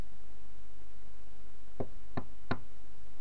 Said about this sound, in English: There is a knock at the door.